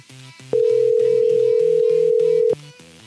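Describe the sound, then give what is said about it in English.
Telephone ringback tone heard while calling a line: one steady, even tone lasting about two seconds, rising clearly above quieter background music that plays before and after it. “Okay, this one rings.”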